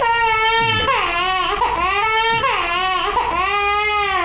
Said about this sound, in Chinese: 不哭了不哭了不哭了啊、哦、宝贝儿，不哭了